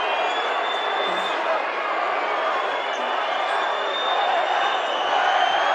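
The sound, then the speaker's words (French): Unhappy crowd at a sports match after a foul is called, a sustained, dense roar of massed voices that stays at a steady level, with a thin high whistle-like tone running above it. “Ouais, le public est pas content, mais il y a faute. Je ne dirai pas ce que dit le public, mais vous devez l'entendre.”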